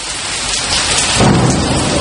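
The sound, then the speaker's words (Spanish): Heavy rain pours down in a dense, steady hiss while a deep rumble of thunder swells partway through and holds under the downpour, loud and with no voices. “Si lo tuyo es el campo, la lluvia tiene otro sentido para vos. Por cada gota que cae, una nueva historia rural.”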